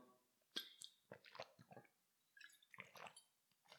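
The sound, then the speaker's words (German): A quick sip of Sprite Zero with lemon syrup, heard as faint wet slurps and swallows in a few short bursts, with a brief pause in the middle. “so, ich muss da mal kurz einen Schluck nehmen.”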